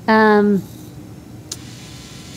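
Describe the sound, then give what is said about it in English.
A standard brushless DC motor with servo control, driven by a Raspberry Pi hat, gives a brief steady humming whine that drops away, followed by quiet and a couple of faint clicks. “So I'll turn it off in a second, but you can see it's rotating a DC motor. So this is a standard brushless motor. It's got servo control. And I'm going to turn it off just to so it's not making noise.”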